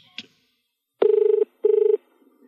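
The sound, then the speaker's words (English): Telephone ringback on an outgoing call to an office: a brief click, then two short warbling rings in quick succession forming a double-ring pattern, clear and alone. “So you're dialing him”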